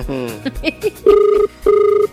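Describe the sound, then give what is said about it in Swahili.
Ringback tone of an unanswered telephone call: two steady, evenly spaced tone bursts, each about half a second long, loud and separated by a short gap, following a brief jumble of other sound. “Namba unayopigia haipokelewi kwa sasa. Haya, naomba niwapigie, nimpigie huyu mwenye nambari nyingine.”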